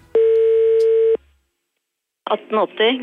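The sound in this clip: A telephone tone heard when calling directory inquiries: one steady, loud, buzzy tone lasting about a second, then silence, then a voice speaking.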